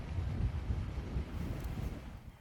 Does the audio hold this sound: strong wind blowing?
yes